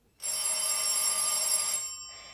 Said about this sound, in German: Da läutet auch noch das Telefon.